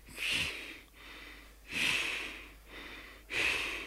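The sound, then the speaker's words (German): Laboured, rasping breathing from rattling lungs in a German radio drama: three heavy, drawn-out breaths at a slow, even rhythm, with no talk. “Hörst du, wie meine Lungen rasseln? Du kannst. Deine Lungen rasseln nicht. Meine Lungen rasseln? Was soll denn sonst so rasseln? Hör doch.”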